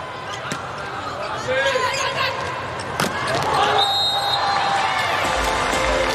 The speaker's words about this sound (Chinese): 队长龚翔宇来发球，